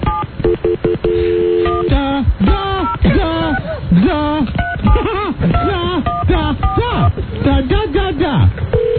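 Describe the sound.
Touch-tone telephone dialing, a quick run of beeping keypad tones near the start, followed by voices.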